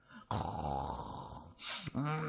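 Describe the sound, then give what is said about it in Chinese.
A voice imitates an old Taoist priest snoring while asleep slumped on a table: one long, rough, rasping snore, then two shorter snorting breaths, all fairly quiet. “这一推不要紧，老道不但没醒啊，反而呼噜起来”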